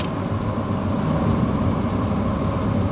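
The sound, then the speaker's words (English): Steady, loud engine rumble of a big V double type truck on the road, a continuous heavy low drone with no voices and no clear change in level. “So here comes a big truck, and what I might do”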